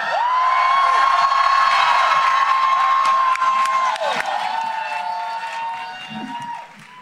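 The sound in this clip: A crowd at a live comedy show cheers, whoops and applauds loudly, with a long sustained whistle riding over the noise before the cheering fades near the end.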